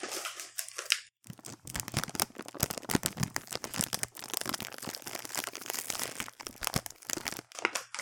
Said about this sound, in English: I won't make you guess what that was. That was me touching a bag of gluten-free mini pretzels.